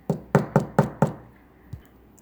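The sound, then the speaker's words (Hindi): Knuckles rap on a wooden door, five sharp, hollow knocks in a quick, even rhythm, followed after a short pause by one fainter knock. “तुम दरवाज़ा खटखटाओ, कछुए ने कहा। फिर से खटखटाओ, खरगोश ने कहा।”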